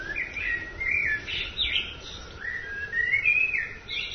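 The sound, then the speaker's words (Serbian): Birds sing at dawn in Melbourne, Australia, with bright warbling whistles and chirps that overlap in a continuous, lively chorus, clear and fairly loud. “tako ove ptice pevaju njihove svetilene, jutarnje slavljenje Boga ovde u Melbourneu, u Australiji.”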